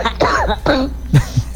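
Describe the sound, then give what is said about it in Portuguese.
Dry, persistent coughing that brings nothing up: two longer harsh bursts come first, then a few shorter, lower coughs, loud and with no talk. “É chata essa tosse, velho. É tosse.”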